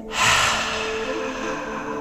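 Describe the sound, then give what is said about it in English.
A slow, steady exhale through the mouth during a relaxation breathing exercise, heard as a soft, breathy hiss that starts suddenly and holds at an even level without talk. “Hold it. And then slowly exhale through the mouth.”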